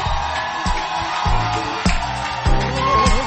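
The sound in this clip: Crowd cheering with whoops and shouts to welcome a bishop at a church service, a dense, steady roar with a few louder swells.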